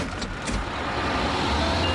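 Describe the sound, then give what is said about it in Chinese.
A bus engine pulls away from a stop with a steady, broad low rumble and a whining drone that holds at a fairly even level throughout. “车辆起步，请站稳。”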